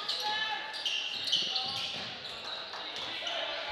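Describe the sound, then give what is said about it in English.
A basketball bounces on the court during a high school boys' game between Exeter and Elizabethtown, several sharp dribble thumps spaced through a steady wash of gym noise and voices. “Dribbling against, gets it deep right into Brandon Cummings. He's trying to dribble against Colin Payne, gets it inside, they bounce it back out.”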